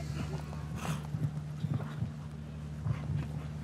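Faint, irregular thuds of horse hooves galloping around a show-jumping competition course, a few soft beats clustered here and there over a steady low hum.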